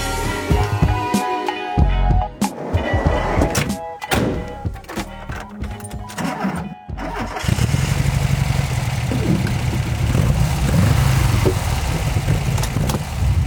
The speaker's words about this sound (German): dieses wohlige, brummende Geräusch im Hintergrund, das ist mein Bulli. Und zwar fahre ich hier gerade auch tatsächlich durch Hamburg.